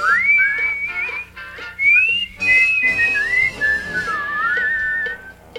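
A person whistles a bright, wavering melody alone, in several phrases separated by short pauses. Notes slide up and down, and some runs are fast and trilled.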